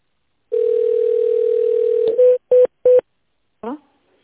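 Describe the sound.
Telephone ringing tone while a call waits to connect to an operator after an automated menu: one long steady tone, then three short beeps at the same pitch, followed by a brief voice.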